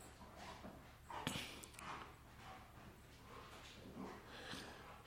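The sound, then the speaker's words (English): Several dogs bark excitedly, faint and rough, in many short uneven bursts with a few yips and whimpers among them over a steady low hum. No one speaks. “oh, the dogs are going crazy. Wow.”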